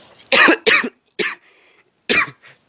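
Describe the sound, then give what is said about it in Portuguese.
Harsh coughing from someone who has choked on saliva: a quick pair of loud coughs, a shorter one, then a pause before another cough and a faint final catch. “me afoguei aqui com a saliva”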